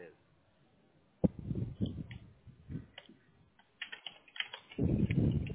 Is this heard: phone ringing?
no